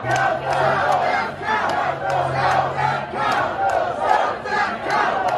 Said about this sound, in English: What you're hearing is one chant, one at one protest group chanting, count the vote, and another chanting, stop the vote.